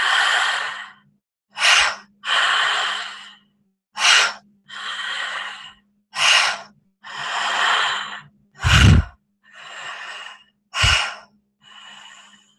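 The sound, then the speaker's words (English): Relaxed, unforced breathing in and out during a guided breathing exercise: a steady series of loud, breathy inhales and exhales. Short, sharp intakes alternate with longer, gentle releases, with brief pauses between them and no talk. “We invite the inhale in, and then we just let it out. So not forceful, it's just a relaxing.”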